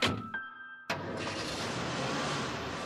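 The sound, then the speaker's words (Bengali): Car sounds as people climb in: a faint tone and a couple of short knocks, then a sudden loud onset that settles into a steady, broad engine-like rumble lasting to the end. “সবাই বেরিয়ে পড়ে এবং গাড়িতে উঠে বসে।”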